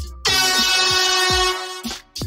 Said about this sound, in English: Let's get the air horn. Let's get the air horn.